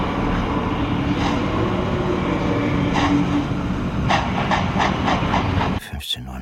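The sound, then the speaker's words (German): Train standing at a station moments before departure: a steady broad hiss and rumble, with a few faint clanks and knocks over it. The noise cuts off abruptly near the end. “Eine Minute vor Abfahrt des Zuges.”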